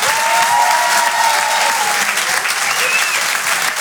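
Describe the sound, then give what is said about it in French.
Audience applause at a comedy club show: dense, sustained clapping from a crowd, with some cheering voices throughout. “faites du bruit pour Gimpo”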